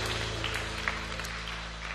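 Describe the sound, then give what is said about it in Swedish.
A church audience applauds during a service in Vasa: a soft, continuous patter of clapping over a steady low electrical hum. “Ska vi ge Jesus en applåd? Jag tycker han är värd det.”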